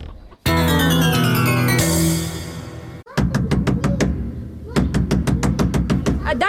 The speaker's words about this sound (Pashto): څوک یې چې داسې په بیړه دروازه ټکیې؟